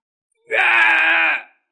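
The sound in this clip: A creature howling in pain: one loud, drawn-out wail lasting about a second, rising sharply at the start and cutting off with a brief fade, heard alone against silence.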